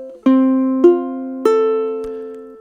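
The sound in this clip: Ukulele F chord played as a broken chord on the top three strings: three clear plucked notes, each added in turn and ringing over the others, with a fresh pluck starting right at the end.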